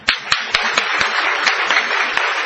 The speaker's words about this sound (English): Now all of us have got 2 hands. Please clap.